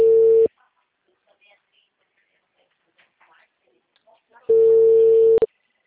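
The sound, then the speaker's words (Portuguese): Busy tone on a telephone line after a dropped call: two steady mid-pitched tone bursts separated by a long silent gap, the second cut off by a short click. “Oi, a ligação caiu.”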